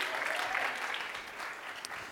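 Church service audience applauding a guest invited on stage, a brief, steady burst of many hands clapping at an even level throughout.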